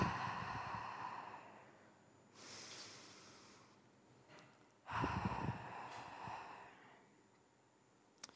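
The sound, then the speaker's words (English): A deep breath drawn in through the nose and let out through the mouth during a guided breathing exercise: a soft, airy inhale followed by a longer, louder breathy exhale, over a faint steady background tone. “So a deep breath in through your nose and then let it out through your mouth.”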